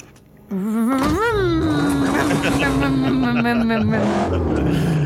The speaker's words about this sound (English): She will start the engine. All right. You want to give us an engine roar?